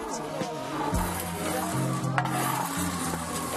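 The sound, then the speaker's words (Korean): Robusta coffee beans roast over a wood fire at a home in Indonesia while being stirred, giving a steady, continuous scraping and rustling with a dry sizzling hiss underneath. “장작불에 원두를 볶고 계십니다.”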